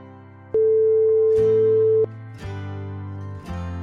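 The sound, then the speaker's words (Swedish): Outgoing phone call tone as a call is placed: a steady electronic beep holds for about a second and a half, overlapped and followed by lower buzzing tone bursts that start and stop at intervals. “ska ringa upp henne här ett ögonblick.”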